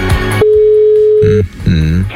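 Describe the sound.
A telephone ringback tone while calling a listener: one steady, mid-low tone sounds for about a second between stretches of talking.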